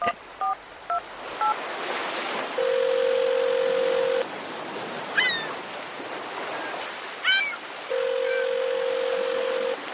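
Touch-tone dialing beeps followed by the steady ring-back tone of an unanswered telephone call, two long ringing bursts separated by a pause, over a constant hissing noise bed.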